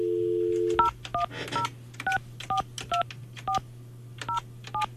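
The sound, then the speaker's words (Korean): Touch-tone keypad beeps as a phone number is dialed on an ordinary landline to call a listener back. A brief steady tone comes first, then nine evenly spaced dual-tone beeps over a constant low hum. “전화 다시 한번 네, 해볼게요. 다시 한 번요.”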